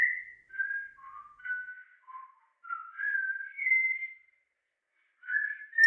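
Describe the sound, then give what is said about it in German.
A man whistles a little tune while strolling through an interrogation room: clear, mid-pitched notes in short melodic phrases, separated by brief pauses and one longer gap, with no other sound. “Der pfeift sich ein Liedchen.”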